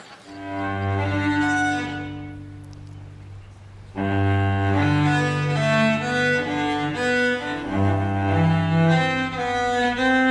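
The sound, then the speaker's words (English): A cello plays a movement from a cello suite in an amateur rendition, with sustained bowed notes rich in harmonics, a brief pause, then a flowing line of changing notes. No voices are heard. “This is Dr. John Dickson's rendition of Cello Suite. So let's just listen to this.”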